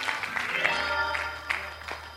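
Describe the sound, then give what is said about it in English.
Congregation clapping hands in a church during praise, a few sharp claps in a loose rhythm over voices and sustained tones, with a low steady hum beneath. “Come on and clap your hands and give God some glory.”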